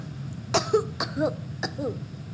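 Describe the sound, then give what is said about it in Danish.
A voice imitates sneezing and coughing with three short, breathy vocal bursts spaced roughly half a second apart. Each burst is fairly loud and has a rough, cough-like edge. “Men pludselig begyndte han at nyse og hoste. Atju, atju.”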